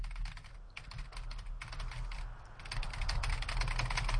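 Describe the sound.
Computer keyboard typing while a file is pulled up: a steady patter of light key clicks over a low background hum, with no voices.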